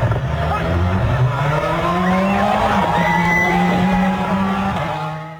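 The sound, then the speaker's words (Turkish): A rally car at the Paraguay rally skids out of control on a bend, with a loud, continuous engine roar and tire scrubbing that hold steady throughout and taper off only at the very end. “Paraguay rallisinde virajda kontrolden çıkan bir araç hendeğe düşerek takla attı. Arabanın hem ön hem de arka tamponu dağıldı ama sürücü vazgeçmedi, yarışa devam etti.”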